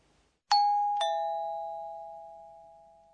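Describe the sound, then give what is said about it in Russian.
A two-tone electronic doorbell chime rings alone: two bright strikes half a second apart, each followed by a long, slowly fading ring. “Это звонок в дверь.”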